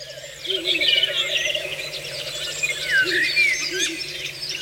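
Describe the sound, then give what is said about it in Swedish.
A Ural owl calls among other birds: a few short, lower calling notes sound under busier high chirps and trills, over a steady faint hum. “Där var en slagugla som ropade.”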